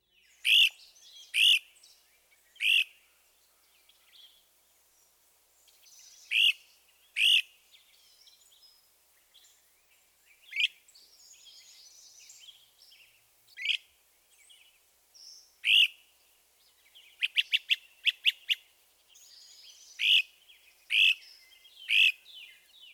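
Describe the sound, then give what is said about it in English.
Great crested flycatcher calls: many sharp, ascending whistled weeps in a loose series over silence, with a quick burst of rapid trilled notes partway through. “Listen again to the ascending weep and the lower pitch trill of the great crested flycatcher.”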